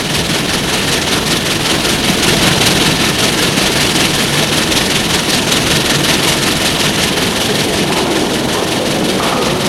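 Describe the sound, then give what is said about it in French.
A train arriving at a station, with a loud, steady engine rumble and broad mechanical drone that holds at an even level for the whole stretch, with no voices. “Le train arrive en gare.”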